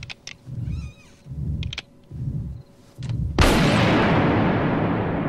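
Single pistol shot, a sudden loud blast with a long roaring decay that fades slowly, coming after a few rhythmic low wailing sounds.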